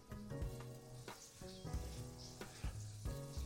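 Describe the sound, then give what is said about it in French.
Onions sweating in a pan make a steady, quiet sizzle that runs through the whole stretch, with soft tonal sounds underneath. “Donc là, on va laisser comme ça pendant au moins 5 minutes, histoire de faire bien suer nos oignons.”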